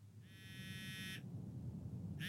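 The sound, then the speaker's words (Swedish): A mobile phone alarm rings as a faint, high electronic buzzing tone that holds for about a second, goes quiet, then starts again at the very end over a low rumbling background. “larmet på mobiltelefonen ringer”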